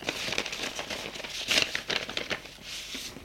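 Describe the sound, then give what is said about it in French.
Paper letters crinkle and rustle as they are put into an envelope, giving a run of crisp crackles with a sharper burst near the middle. “Elle met dans une enveloppe la lettre de Cordex”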